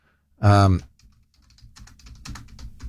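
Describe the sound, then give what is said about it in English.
Typing on a computer keyboard: many quick, light key clicks in an uneven rhythm that grow busier toward the end, after a brief loud vocal sound at the start. “I'll type it now.”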